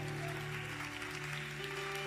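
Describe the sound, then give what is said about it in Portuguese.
A church audience applauding the Lord, a faint, steady patter of clapping over sustained low held tones. “pode aplaudir o Senhor.”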